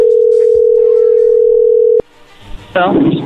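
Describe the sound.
A telephone dial tone holds steady and loud for about two seconds, then cuts off abruptly as a call is placed. Quieter line noise follows, and a voice comes in near the end.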